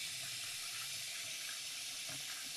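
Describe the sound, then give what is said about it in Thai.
Tap water runs into a sink to wash Japanese rice, giving a steady, even hiss of flowing water that stays unchanged throughout. “มาดูกระบวนการในการล้างข้าวเลยนะเดี๋ยวจะเปิดน้ำแรกนะเดี๋ยวจะให้ดูความแตกต่างเลยค่ะ”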